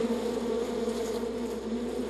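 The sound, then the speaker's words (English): Worker bees fan their wings inside an overheated hive to cool it. They make a dense, steady buzzing hum that stays continuous and even in loudness throughout. “Worker bees beat their wings as fast as they can. They make wind to cool the hive.”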